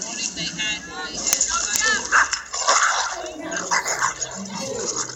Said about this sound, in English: So it was though the brown dog was just waiting for it.